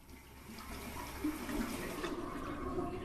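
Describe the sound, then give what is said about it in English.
Water running from a tap in a bathroom, a faint, steady rushing stream that holds evenly throughout without pauses. “She takes a pill, then puts her head under the tap to wash it down.”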